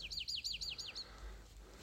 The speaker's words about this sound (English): we have these two birds, the exact same bird. They're talking to each other right now. One is like over to our left. One is over to our right.